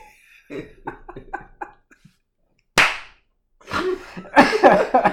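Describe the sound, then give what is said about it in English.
A sharp nasal snort bursts out once midway, abrupt and noisy, after a stretch of soft clipped vocal sounds, followed by several further loud breathy bursts. “You made me snort.”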